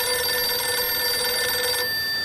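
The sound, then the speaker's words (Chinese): A telephone rings with a steady, bright electronic trill, loud and unbroken, then cuts off abruptly shortly before the end. “池峰城走了以后，孙连仲赶紧给池峰城打了电话”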